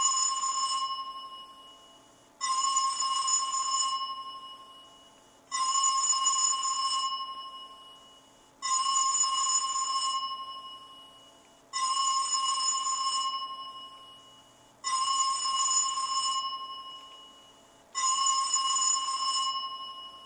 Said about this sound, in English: You just need to be about 25 to 30 seconds so it rings long enough to get you to voicemail. So let's play this.